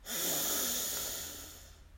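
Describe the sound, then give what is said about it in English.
A single deep inhale during a guided belly-breathing exercise: a loud, airy hiss that swells quickly, holds for about a second, then tapers off into near silence with no talking. “So let's breathe in”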